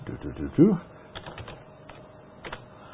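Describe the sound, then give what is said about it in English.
Computer clicks sound while someone searches a word on a computer. A voice briefly opens the passage, then several light, separate clicks follow at an uneven pace. “Let's try real quick like here. Okay, we'll go click. Click, click, click, click, click, click, click.”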